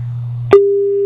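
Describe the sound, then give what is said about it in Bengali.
A telephone line tone after a call connection drops: a low hum, a sharp click, then a loud steady single-pitched tone. “না, আবারও বন্ধুর সঙ্গে যোগাযোগ বিচ্ছিন্ন হয়ে গেল।”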